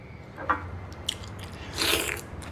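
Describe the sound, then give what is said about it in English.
Faint biting and chewing as a man eats stewed pork and a Chinese dumpling dipped in meaty juices at a table, with a few soft, wet, crunchy bites over a low steady background. “He dips a Chinese dumpling into the meaty juices and eats.”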